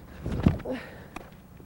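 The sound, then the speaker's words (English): Footsteps as someone takes two steps back during a training drill: two soft, muffled thuds spaced well apart in otherwise quiet surroundings. “I'm just going to do one, and then I'm going to take two steps back and do it again. Okay. And two steps back. And do it again.”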